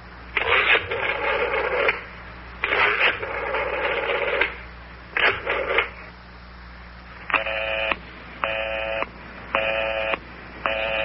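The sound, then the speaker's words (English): Telephone busy signal after dialing a number: a few louder, rougher bursts, then four evenly spaced, steady tone beeps of equal length at a moderate level, repeating in a regular on-off rhythm. “Listen to that. Line is still busy.”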